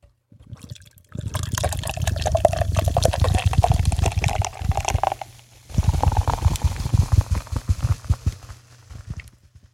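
Beer is poured into a glass in two gurgling, bubbling pours separated by a short pause, the liquid splashing and foaming fairly loudly throughout.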